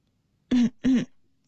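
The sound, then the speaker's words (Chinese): A light cough, like clearing the throat, made of two short voiced bursts in quick succession against near silence, followed by a faint click. “李世民见了陆东赞的神情微微有些讶异，李克却轻咳了一声。”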